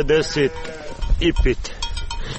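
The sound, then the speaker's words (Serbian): Sheep being let out onto snow-covered meadows bleat in a few wavering, nasal cries, with bursts at the start and again near the middle, some overlapping one another. “Izlazi iz kuće, kaže ovce ne čekaju, pušta ih na snijeg koji je ovih dana pokrio livade, pa se troše i zalihe sjena.”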